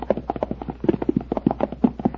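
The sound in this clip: Horses' hooves clip-clop as they walk back to the stable, with many quick, even hoof falls in a steady rhythm and no voices.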